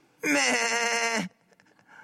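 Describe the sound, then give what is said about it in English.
A voice imitates a lamb's bleat during talk about Mass: a single drawn-out, nasal 'meh' lasting about a second, loud and alone, then fading into quiet. “what kind of animal should we truly act like? Like lambs.”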